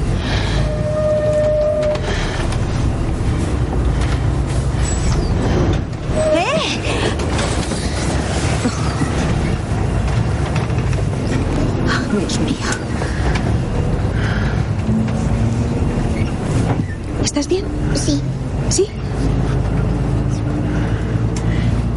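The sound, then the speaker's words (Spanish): A bus carrying a family and hotel guests drives along, rocking forward and backward, with a loud, steady engine and road rumble throughout and scattered knocks and jolts. “Toda la familia y los clientes del hotel van montados en el autobús. El vehículo hace movimientos hacia adelante y hacia atrás.”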